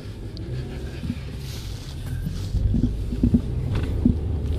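A car drives along a residential street, with a steady low rumble of engine and tyres and some wind noise. A few soft thumps rise out of the continuous drone.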